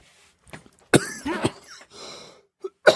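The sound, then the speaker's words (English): A smoker coughs in several rough, hacking bursts with throat-clearing between them, then gives one more harsh cough at the end. “Excuse me. Yeah, I'm a smoker too, so bear with me. I'll hack from time to time.”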